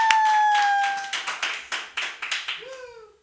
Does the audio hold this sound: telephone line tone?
no